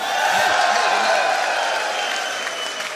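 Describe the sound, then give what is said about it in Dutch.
A large crowd claps and cheers at a political party's election victory celebration, a dense, unbroken wall of applause that eases slightly toward the end. “Van harte gefeliciteerd. Juich maar voor jezelf.”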